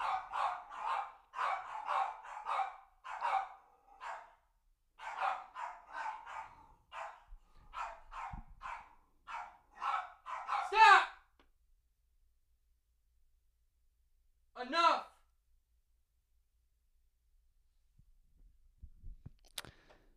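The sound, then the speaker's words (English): Dogs barking while squabbling for attention, many sharp barks in quick bursts, then a pause broken by a single louder bark and near silence. “the barking is over now. It's probably because the door's closed.”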